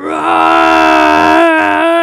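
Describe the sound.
A person imitates a proud lion's roar with one loud, sustained, throaty voiced cry lasting about two seconds, rich in harmonics and held at a fairly even pitch.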